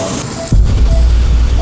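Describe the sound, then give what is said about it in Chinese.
Water irrigation flushes during surgery on calcified blood vessels, making a steady hissing spray. It swells louder partway through and then continues unbroken to the end. “冲水，冲水。”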